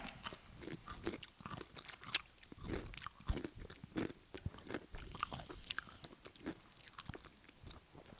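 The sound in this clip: Crunching and chewing a sweet, bread-and-butter pickle-flavored chip: many sharp, irregular crisp cracks and softer chewing sounds at moderate level, with no talk.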